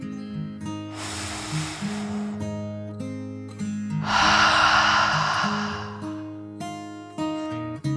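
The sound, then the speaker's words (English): A slow, deep breath drawn in and then let out, two long airy rushes of breath separated by a pause, heard over soft sustained tonal music. “taking a deep dragon breath in and out”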